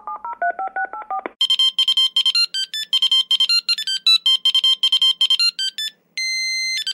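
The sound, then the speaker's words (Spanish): A mobile phone is being dialled and its keypad beeps. A brief warbling lower tone comes first, then a quick run of many short, high beeps, and it ends with one long steady tone. No voices. “Sacó su móvil y se puso a marcar.”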